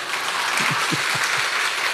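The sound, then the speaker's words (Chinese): Audience applause at a speaking event, a dense and steady wash of clapping that fills the whole clip, with a few faint low tones sounding under it. “我运气运得不好，不过拍手吧，拜托。”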